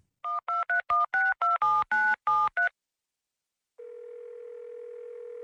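A telephone number is dialed as a quick run of crisp keypad tones. After a short silence, a steady, even line tone begins and holds to the end, with no voices.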